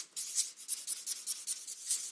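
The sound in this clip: Pen scratching on paper in many quick, faint strokes, each a short dry rasp in a fairly steady rhythm, with no talk.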